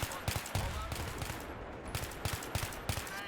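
Gunfire from shooting in a video game, rendered as a run of many sharp, clipped bursts at uneven intervals, each shot crisp and of fairly even loudness.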